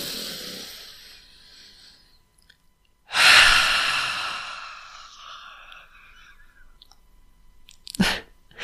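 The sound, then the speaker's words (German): A deep, conscious breath: a soft airy breath fades out, then a louder rushing breath swells up and slowly dies away, followed by a short sharp breath near the end, with no talking. “Komm, wir nehmen mal zusammen einen tiefen Atemzug.”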